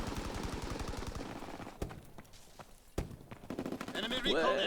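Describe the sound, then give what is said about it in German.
Video game gunfire from a weapon shot from the hip: a fast automatic burst of rapid cracks, then a few loud single shots, with a voice talking over parts of it. “Da kannst du die halbe Map über die Hüfte schießen. Aus der Hüfte schießen über die halbe Map.”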